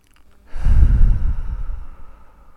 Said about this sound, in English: So keep pulling that air deep into your diaphragm.